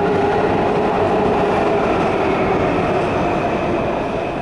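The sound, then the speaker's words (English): A train rolls past on the neighbouring track, heard from a catwalk beside the track bed: a loud, steady rumble with metallic grinding that holds evenly throughout, with no voices. “Now, the train you're going to hear come through, that train is on the other track.”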